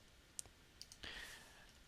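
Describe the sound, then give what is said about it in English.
Faint, sharp mouse clicks from selecting the flight planner in flight-planning software, a few quick taps followed by a soft steady hiss. “So we'll click flight planner,”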